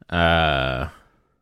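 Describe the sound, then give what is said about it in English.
A person yawns aloud in one long voiced breath that holds steady, then trails off into a short breathy tail before silence. “I apologize for the yawn, everybody.”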